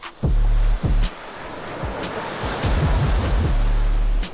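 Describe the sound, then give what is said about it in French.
Sea waves wash against the shore on a seaside outing, a broad hiss of surf rising and falling. Heavy bursts of wind rumble buffet the microphone throughout, loudest near the start and again toward the end. “On est allé à la mer avec Jonathan, le médiateur scientifique du musée d'histoire naturelle de Nantes”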